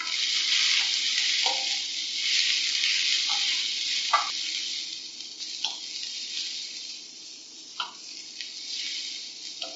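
Baby marrow sizzles and fries in a pan while being stirred, a steady bright hiss broken by several short scraping knocks of stirring.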